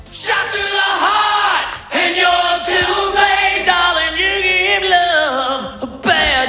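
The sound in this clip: A rock concert crowd in New York singing and yelling together, loud massed voices carrying a sustained melodic line, broken by brief pauses and sharper shouts.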